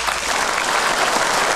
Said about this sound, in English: And a round of applause, ladies and gentlemen,